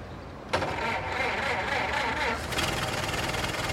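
An old, scratched car with a broken headlight starts up: the engine catches with an abrupt burst and then keeps running in a steady, rough, buzzing drone.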